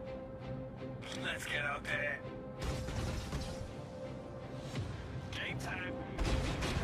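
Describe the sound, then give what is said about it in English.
Heavy booming blasts and weapon fire from a video game space battle between two Idris ships, with sudden loud crashes under people talking. “There it goes, guys. This is a serious, serious blast. Give it a second here. It's coming up.”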